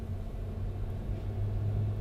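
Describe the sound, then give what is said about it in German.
A tram rumbles across a bridge, producing a steady low-pitched rumble with a slight rhythmic throb that holds at an even, moderate level throughout. “Die Menschen im Tram, das jetzt über die Brücke fährt”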